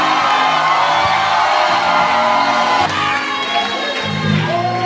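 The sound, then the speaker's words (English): A church audience shouts, whoops and cheers in welcome of a ministry, a loud and unbroken wall of crowd voices that holds steady for the whole stretch. “Then with shout and with joy, I want us to welcome the ministry of my father, the only doctor I know, Dr. George Wilfred Arthur.”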